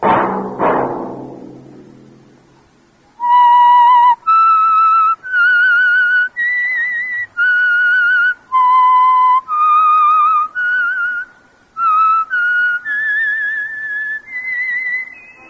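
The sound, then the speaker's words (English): A solo whistler performs a radio programme's theme signal, a clear, bright melody of many sustained notes that rise and fall in short phrases, following a brief noisy burst at the start. “Let that whistle be your signal for the Signal Oil program, The Whistler, each Sunday night at this same time.”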